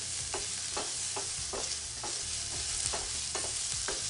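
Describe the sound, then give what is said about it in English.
Onions sautéing in a pan with fish fond and spices give a steady, dense sizzle, broken by soft scraping stirs that recur every half second or so. No one speaks. “I just love the smell of sauteing onions.”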